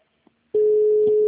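An unanswered telephone call produces a ringing tone. After a brief quiet stretch with a faint click, a steady single-pitch tone begins and holds at even loudness to the end.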